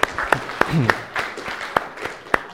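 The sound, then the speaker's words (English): An audience applauds a woman, with scattered, spaced claps rather than a dense roar. Voices talk over the sparse clapping throughout. “Yay, give her a hand.”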